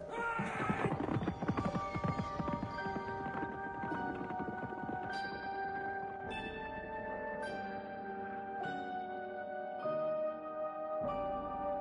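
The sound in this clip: Horse hooves clip-clop at a gallop, with a dense patter of strikes at the start, while clear ringing, bell-like tones sound steadily over the hoofbeats.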